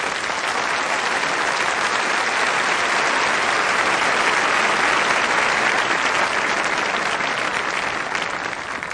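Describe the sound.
Loud, sustained audience applause welcoming pastor Bill Hybels to the Crystal Cathedral: a thick, even roar of clapping from a large crowd that stays level for about nine seconds.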